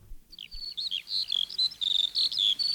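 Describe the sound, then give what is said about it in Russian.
A skylark sings alone in a quick, unbroken run of short, high-pitched warbling chirps with clear gaps between the notes. “Вдруг вы слышите? Вы слышите? Жаворонок спустился”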